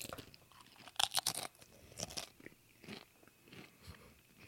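Crisp bites into a Flamin' Hot seasoned Pringle chip, with a quick cluster of sharp crunches followed by several quieter chewing crunches, all faint and without talk.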